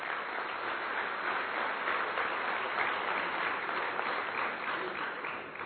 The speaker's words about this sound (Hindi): इसके लिए एक बार पुनः जोरदार तालियां।